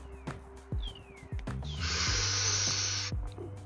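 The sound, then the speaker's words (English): A smoker takes a long, breathy, hissing inhale from a blunt lasting over a second, preceded by a few soft clicks and small breaths. “Inhale and hold that in”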